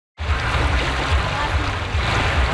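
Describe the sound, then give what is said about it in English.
Paddlers launching boats on a river give a steady wash of moving water and splashing, with a low rumble and scattered knocks beneath, continuous and fairly loud after a brief silent start. “That's the sound of paddlers embarking on the last Paddle the Don event back in 2019.”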